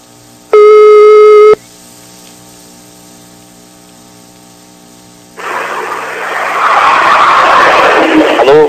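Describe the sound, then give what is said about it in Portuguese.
A telephone ringing tone sounds while a call is placed: one steady, clear tone lasting about a second, followed by faint line hum and then a loud, rough static hiss that fills the rest. “Vamos ligar agora. Tá ligando aí?”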